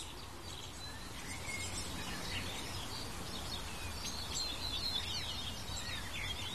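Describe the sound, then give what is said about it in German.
A tit gives a scolding call outdoors: faint, scattered high chirps over a steady, quiet background hiss. “Jetzt schimpft eine Meise und schickt mich nach Hause.”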